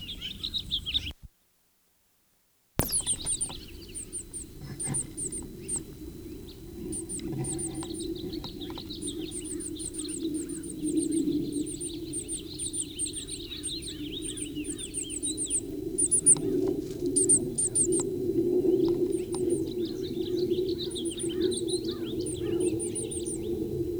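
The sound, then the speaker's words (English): Bird calling in a pasture: many short, high chirps repeat steadily throughout, sitting over a continuous low rumble that grows slightly louder toward the end. “Still a Blomquist pasture bird.”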